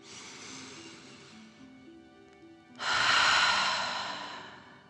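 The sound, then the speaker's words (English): A slow, deep breath is drawn in and then, after a short pause, let out in a longer, louder exhale, with soft, steady musical tones underneath. “let's take 3 more deep dragon breaths. Deep breath in and out.”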